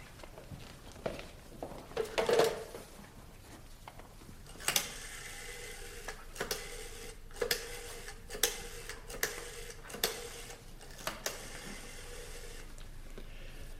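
A telephone being dialed produces a series of light mechanical ticks and clicks in short bursts separated by brief pauses, over a soft background hum.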